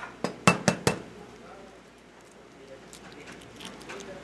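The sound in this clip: Eggs cracked on a flat surface and separated, whites into one bowl and yolks into another. A quick run of four sharp taps and clinks gives way to softer, scattered bowl sounds under faint talk.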